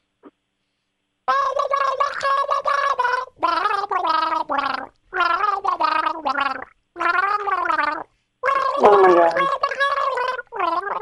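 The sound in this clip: A person gargles a song with something in the mouth, making a wet, bubbling, wavering tune in about five loud sustained phrases separated by short pauses.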